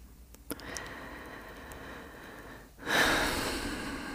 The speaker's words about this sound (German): Und einatmen, ausatmen. Einatmen.